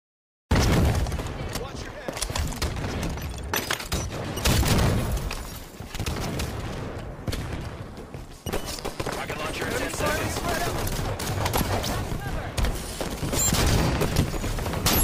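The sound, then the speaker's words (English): Halo 5 gameplay rattles with dense gunfire and booming explosions, rapid bursts of shots piling up almost without pause at a loud, busy level. “you've got an old Halo 5 clip. It's still pretty badass, so we're going to play that up. Let's play it with audio, Tony.”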